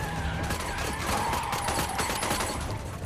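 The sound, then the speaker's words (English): Gunfire as two men shoot at a car in a film scene. Many sharp shots crack in rapid, uneven bursts. “Marshall runs out. He and a man shoot at Frank's car.”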